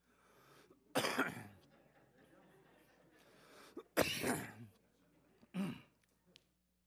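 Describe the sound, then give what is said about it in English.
Throat clearing in three harsh, loud bursts, the last one shorter, with quiet stretches between them. “I got a little something in my throat.”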